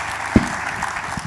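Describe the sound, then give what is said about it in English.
Audience applause welcomes a guest as he is called up: steady, dense clapping runs through the whole brief moment, with one low thump near the start. “Y'all give Michael a hand.”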